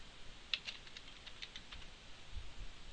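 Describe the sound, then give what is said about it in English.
Faint clicks of typing code on a computer keyboard: a short run of light, quick keystrokes early on, then quieter and sparse. “Now let's type in function wheelie.”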